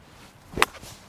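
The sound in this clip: A golf swing with a 7-iron, played off the back foot and struck slightly unclean. A single quick swish ends in one sharp, loud crack at impact against a quiet background.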